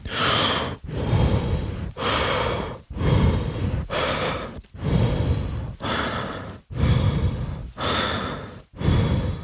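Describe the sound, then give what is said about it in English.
Slow, airy breathing at a one-to-four breath ratio, shown as a relaxing cadence for athletes: loud breath sounds repeat in many steady cycles, separated by short pauses, with no talk over them. “let's just say that they move to then a 1-to-4 breath ratio. So that would sound something like this.”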